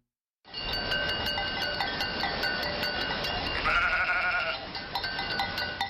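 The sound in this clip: Sheep and goats bleat together as nomadic herders drive their flocks, alongside loaded camels, on the seasonal migration toward warmer lands. The overlapping calls form a steady, dense chorus with clinking bells throughout, and no voices.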